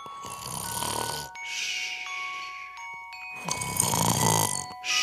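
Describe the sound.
A voice imitates snoring as someone dozes off late at night, with a couple of loud, raspy, drawn-out snore breaths separated by a quieter stretch. No other talk is heard.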